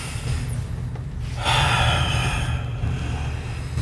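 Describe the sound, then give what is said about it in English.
A deep breath taken to get ready for a breathing exercise, heard as airy, breathy noise that swells in the middle over a steady low hum. “So first, take a deep breath so you get ready. So you can do that in through the nose, out through the mouth, any way you want to do it.”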